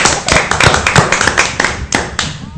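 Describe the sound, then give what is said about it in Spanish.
Applause for a departing guest: loud, uneven clapping with sharp, irregular hand claps rising and falling, with no talk over it. “Un fuerte aplauso para Gustavo Martínez.”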